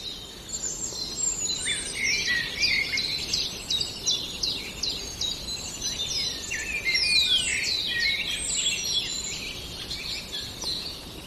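A songbird imitating a linnet sings a continuous stream of rapid, high twittering phrases with varied chirps and trills. The song is moderately faint and sits over a low background hiss.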